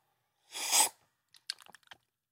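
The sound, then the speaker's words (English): Lip smacking while tasting food: a breathy whoosh of air comes first, then several small, quiet wet clicks of the lips and tongue in a short irregular cluster. “Gotta make some smacking sounds.”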